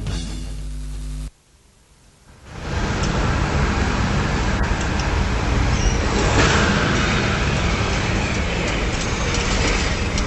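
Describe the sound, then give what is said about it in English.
A Melbourne tram rounds the corner of Bourke and Spring Streets, a dense, steady rumble of rail and street noise that swells in after a brief lull and stays loud to the end. “Welcome to the Anarchist World This Week, broadcast live from the corner of Burke and Spring Street in Melbourne. That's right. That's a tram you're hearing going around the corner.”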